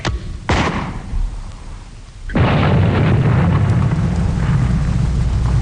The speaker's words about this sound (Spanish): tenemos contacto con las fuerzas de artillería desplegadas en las montañas Watchung. Alcance 32 metros. 32 metros, señor. Proyección 39 grados. 39 grados. Fuego.